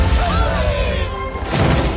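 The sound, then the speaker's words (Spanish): A loud, roaring crash as a ship is smashed, heavy and sustained with a swishing swell through the middle and a fresh burst of impact noise near the end. “¡Ha destrozado mi barco!”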